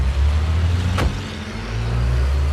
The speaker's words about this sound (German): Arrow, Cameron und Elton steigen hastig in den Bentley und noch bevor sie die Tür ganz geschlossen haben, fahren sie hinter unserem Wagen an.